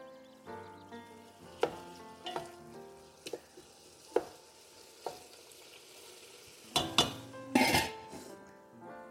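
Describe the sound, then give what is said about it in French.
Potatoes sizzle and bubble faintly in a pan after a little water is added, with scattered clinks and scrapes of utensils against the pan. “Je remets encore un petit peu d'eau pour avoir une écrasée qui ne soit pas non plus trop trop sèche.”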